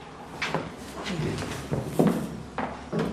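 A chair is pulled up and sat on in a classroom, giving a few short scraping knocks and bumps of moderate loudness spread across a few seconds.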